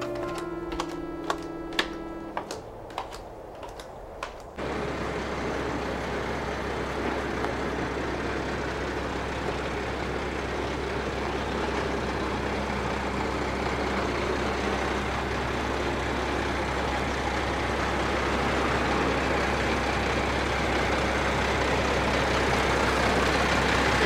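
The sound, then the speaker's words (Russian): A truck slowly pulling up and stopping, heard as a steady low engine rumble with broad noise that holds for about twenty seconds. A few sharp, quick clicks come just before it. “Грузовик Глеба медленно подъезжает и останавливается.”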